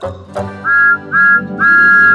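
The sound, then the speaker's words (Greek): Steam locomotive whistle of a cheeky blue tank engine: three high, bright whistle blasts, the last one longest, over a steady low background. “Ο Τόμας είναι ένα ατίθασο μπλε τρένο με ατμομηχανή. Είναι το νούμερο 1 στο σιδηρόδρομο του κύριου Τόφαμ Χατ και η σφυρίχτρα του ακούγεται κάπως έτσι.”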